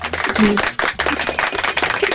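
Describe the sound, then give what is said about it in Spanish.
Hands clapping in encouragement during a word game, a quick, uneven run of sharp claps. “Espérame, te voy a dar unos aplausos para que te motives.”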